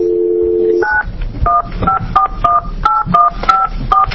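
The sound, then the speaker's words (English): A telephone number is dialed to call someone during a Senate committee hearing: a steady low dial tone gives way to a quick, evenly paced series of short two-pitch keypad beeps over faint background noise. “Okay, let's give him a call.”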